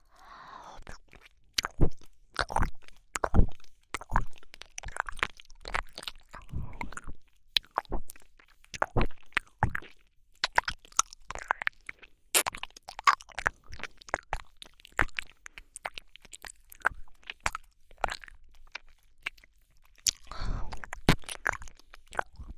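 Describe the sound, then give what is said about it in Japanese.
Wet ASMR ear-licking mouth sounds: many soft clicks, smacks and squishy pops in an irregular, continuous stream, with no talk. “このしこしこを続けながら、引き続き、お耳を舐めさせていただきます。”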